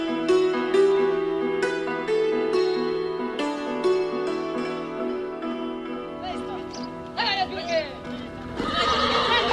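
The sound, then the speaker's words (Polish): Galloping hoofbeats and shrill whinnies from a saddled horse ridden off at night in hard frost during a wartime evacuation. A steady run of hoof thuds comes first, then loud neighs in the later part, over a sustained musical tone. “Nakłada siodło i od razu galop.”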